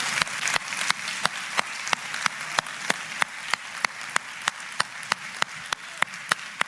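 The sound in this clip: An audience applauds to welcome a speaker. Sharp claps land on a steady, regular beat many times over a continuous wash of clapping noise, without talking.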